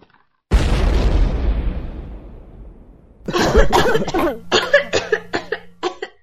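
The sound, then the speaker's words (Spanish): An exploding chocolate bomb sets off a sudden, loud boom whose rumble fades over a few seconds. A series of short, sharp bursts then follows in an uneven rhythm. “¿Pero qué pasó? Ya ven, un chocolate bomba.”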